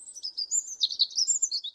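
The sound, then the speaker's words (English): Springtime birdsong outside an office from a bird building a nest: quick, high chirps and twittering trills run continuously, fairly faint and alone. “When I hear a bird singing as she begins to make a nest outside my office,”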